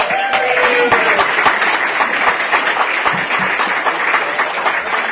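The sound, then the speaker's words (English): Audience applause welcoming the main speaker of the evening, a loud, dense patter of many hands clapping that stays steady throughout. “Please give a warm welcome to Andrew from San Diego.”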